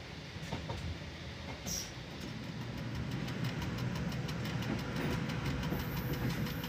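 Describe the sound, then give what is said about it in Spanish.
A train runs along a railway line through vineyards and orchards, a steady low rumble that grows slightly louder, with a run of regular rhythmic clicks from the wheels. “El tren pasa por viñedos y huertos.”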